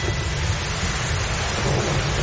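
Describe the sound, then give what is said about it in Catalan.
Heavy rain turning into a thunderstorm over an outdoor summer music festival: a loud, dense, unbroken roar of downpour with a deep low rumble beneath it, steady throughout with no pauses. “Tot va més o menys bé fins que quatre núvols inofensius s'han convertit primer en una mica de pluja i després en una tempesta.”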